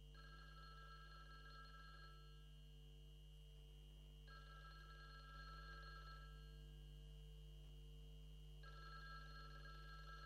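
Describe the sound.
A telephone rings in three long bursts of steady electronic trilling, spaced a few seconds apart, fairly faint over a constant low hum.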